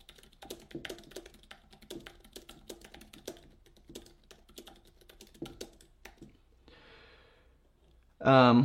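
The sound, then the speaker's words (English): Rapid, irregular clicking of keys being typed on a computer keyboard goes on for several seconds, stops, and is followed by a brief quiet stretch before a voice begins. “Just had to type out something.”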